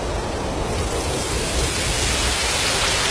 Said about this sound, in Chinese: 这是风声